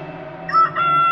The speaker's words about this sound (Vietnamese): gà cũng vừa cất tiếng gáy